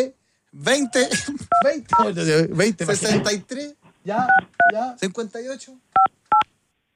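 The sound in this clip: Telephone keypad dialing tones: a few short electronic dual-tone beeps, some mixed in with people talking and two clear ones near the end after the talk stops.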